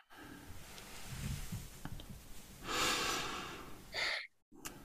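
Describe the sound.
Slow, deep breathing during a guided relaxation exercise. Faint airy breath sounds build into one long, strong inhale, followed by a shorter breath, a brief pause and a final breath.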